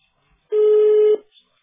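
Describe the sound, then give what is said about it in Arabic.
After a phone call is cut off automatically, a telephone line gives a single short, steady tone held at one pitch, alone. “نعم انقطع الاتصال كالعادة شيخانا بارك الله فيكم بعد نصف ساعة يعني تقطع الاتصال بطريقة تلقائية.”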